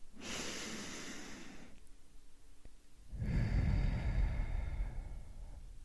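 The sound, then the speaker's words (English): A slow, deep breath, heard alone as two long airy rushes of air separated by a short pause, the second one fuller, lower and louder. “Let's take a deep breath in and continue.”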